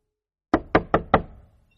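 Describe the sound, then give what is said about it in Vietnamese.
Four sharp knocks on a room door, evenly spaced and loud, each dying away quickly, with nothing else heard. “Dì Hạ thấy anh gõ cửa phòng ông Đăng.”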